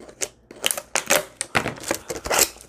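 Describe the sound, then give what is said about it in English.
Paper labels being peeled off plastic water bottles make a quick run of short, crackly ripping bursts. They are fairly soft and come one after another with brief gaps, with no talking. “I just grabbed two water bottles and I'm going to take off the paper.”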